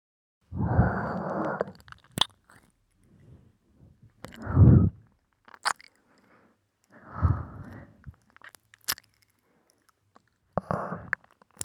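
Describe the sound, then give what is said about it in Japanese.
Wet licking and sucking mouth sounds as a tongue laps sweat from a face and neck: a few soft, moist bursts with small clicks, separated by quiet gaps. “じっとり出てきた汗ぜーんぶベロで吐いてチューチュー吸い取ってあげる。”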